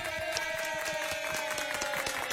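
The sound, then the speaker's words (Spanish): Applause from a crowd welcomes the night's guest on a live show: continuous, fairly faint clapping with many overlapping claps and a steady, even level. “Muy bien, fuertes los aplausos para nuestro invitado de esta noche.”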